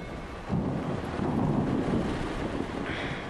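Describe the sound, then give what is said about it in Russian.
A thunderstorm: a deep rolling rumble of thunder swells in after a brief moment and keeps going, loud and continuous, over a steady rain-like hiss. “Ух, какая гроза.”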